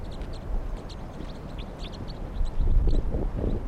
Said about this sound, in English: Wild bird. It's a huge flock.